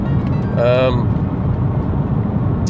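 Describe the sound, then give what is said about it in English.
A car driving at speed through fog gives a constant road and engine roar. A brief voice sound rises over it early on. “I'm driving through fog, talking on my podcast, doing 110, so breaking every law possible in Australia.”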